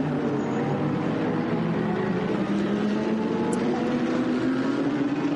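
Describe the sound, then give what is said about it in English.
Engine drone of a Mercedes racing car rejoining the circuit after a long pit stop to service its right front corner. The roar is continuous and its pitch climbs gradually over several seconds, with no talking. “As we watch the Red Ant Racing Mercedes coming back out on the circuit, they are a long way back.”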